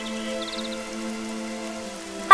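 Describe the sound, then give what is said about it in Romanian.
A summer rain shower falls while the sun shines, a steady soft hiss of drops throughout under a sustained low tonal hum, with a brief louder burst at the very end. “ia uite, plouă cu soare!”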